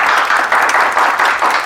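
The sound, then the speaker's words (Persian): Audience applause at a company gathering: a dense, steady wash of many hands clapping, loud and continuous throughout with no talk over it. “تشویق بفرمایید.”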